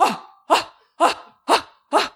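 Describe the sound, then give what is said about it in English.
A person imitates the breath of fire breathing exercise with five sharp, forceful exhalations at a steady half-second rhythm. Each is a short, loud, breathy burst followed by brief silence. “every morning you get up and you do the breath of fire. And then she stands up and she pulls her arms back”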